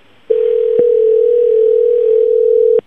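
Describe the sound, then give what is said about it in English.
A telephone dial tone as a call is being placed: one steady, low, unbroken tone lasting about two and a half seconds, with faint clicks during it and a click as it cuts off. “I want to call him right now. I think that actually the engineers of the show, the super amazing Webmaster Radio engineers, are dialing right now.”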